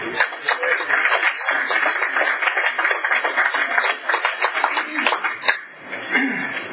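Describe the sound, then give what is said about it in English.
Audience applause welcoming a warm-up speaker at a Tulare County gathering: dense, steady clapping from many hands that holds throughout, sounding thin and muffled, with a brief dip near the end. “let's give a rousing Tulare County welcome to our warm-up speaker, Brad.”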